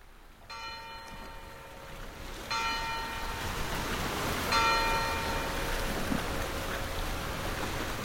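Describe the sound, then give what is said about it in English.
Noontime church bells from two churches in Baume-les-Mimosas, a village on the rocky south coast of France: three resonant strikes about two seconds apart, their long ringing tones hanging over a steady, rushing background wash. “We leave you on a rocky shoreline along the south coast of France in a little village called Baume-les-Mimosas. Stephen Feld set up his microphones there to record the noontime bells from two churches.”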